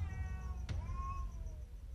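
A cat that has strayed into a house gives a faint, drawn-out tonal meow. A sharp click sounds just before it, over a low, steady background hum.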